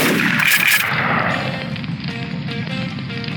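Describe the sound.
A heavy gunshot from a big gun: one loud booming blast at the start fades over about a second, followed by a steady rumbling background with faint tonal notes.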